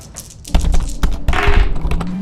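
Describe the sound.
Dice rolled on a table during a tabletop role-playing game: a few sharp clattering knocks and taps over a busy rattling wash, fairly loud, with no talking.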